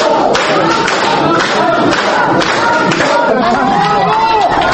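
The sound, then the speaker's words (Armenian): Applause and loud exclamations from people gathered in a courtroom after a judge's ruling. Dense clapping mixes with shouting voices in a continuous, loud crowd roar throughout. “Դատավորի որոշումն արժանացավ դատարանի դահլիճում հավաքվածների բուրըն ծափահարություններին ու բացականչություններին։”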